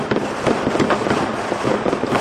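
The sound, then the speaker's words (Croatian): Fireworks and firecrackers going off over a city square in Pristina as New Year's Eve turns from 2012 to 2013: a dense, continuous crackle of many overlapping pops and bangs, with no voices. “Veliki broj vatrometa i petardi obeležili su posljednje i prve minute 2012. i 2013. godine.”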